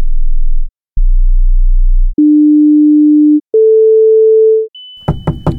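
Pure hearing-test tones step upward from low to high: two deep hums, then two steady mid-pitched beeps, then a thin high tone joined by a few short bursts of sound.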